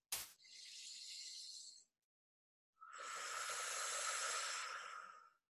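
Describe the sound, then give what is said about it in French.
A deep breath is drawn in through the nose, then let out through the mouth during a guided relaxation exercise. A soft, hissing inhale of about a second and a half is followed, after a short pause, by a longer, fuller, breathy exhale, both faint. “On va juste prendre une grande inspire par le nez, une grande expire par la bouche.”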